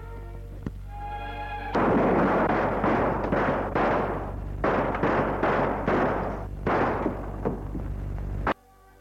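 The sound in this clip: Revolver gunfire in a dramatic scene: a faint low hum, then an abrupt loud blast followed by many repeated heavy, booming bursts that stop sharply near the end.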